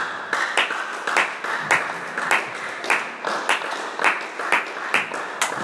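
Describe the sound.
A church audience claps their hands in steady rhythmic unison during a Wednesday teaching service, with many sharp claps falling on an even beat throughout.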